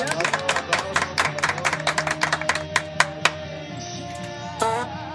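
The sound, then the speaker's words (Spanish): Applause for a guest being welcomed. It starts as a flurry of quick, sharp hand claps, then thins out into a few scattered, isolated claps before fading. “La callaron a puros aplausos, como los grandes artistas, así es.”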